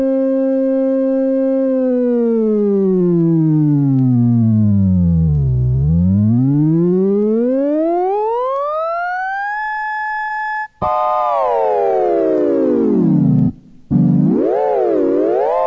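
Synthesizer tone with its whole keyboard pitch slid by a potentiometer: a loud, buzzy sustained note glides steadily down to a low growl, sweeps back up high, then after a brief break jumps and wobbles up and down.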